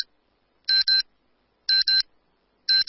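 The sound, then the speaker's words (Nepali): Noon time-signal beeps on a Nepali radio station: crisp, high electronic pips in pairs, one pair each second with silence in between, the third pair cut off at the end. “मध्याह्न 12 बजेको प्रकृति समय सन्देश।”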